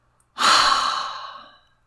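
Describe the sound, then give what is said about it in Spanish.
A single deep exhale released after a held breath in a breathing exercise: a long, breathy rush that starts strong and slowly fades away over about a second and a half. “Inhalando profundamente. Retenemos, retenemos, retenemos, retenemos. Soltamos toda la rabia.”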